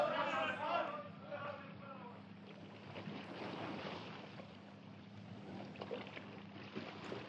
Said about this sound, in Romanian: Au luat luntre. Au fugit nemernicii.